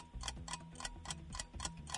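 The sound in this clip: A quiz countdown timer ticks in an even, clock-like beat of about seven sharp clicks over two seconds, fairly faint, over a low droning tone.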